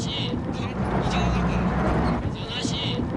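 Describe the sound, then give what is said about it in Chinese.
Two military trucks drive slowly with a continuous low engine drone. A voice talks over the rumble almost throughout. “两辆军用卡车正缓慢地前行”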